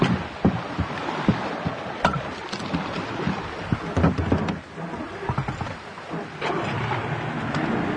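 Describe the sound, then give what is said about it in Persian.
A boat setting out on the water of the Arvand river, with a continuous wash of sloshing water and wind. Scattered knocks and splashes rise above it. “گروه آماده ی رفتن با قایق به دل اروند میشه.”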